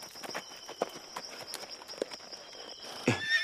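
Horses' hooves clip-clop in an uneven rhythm as the animals come to a halt, and a high whinny bursts out near the end.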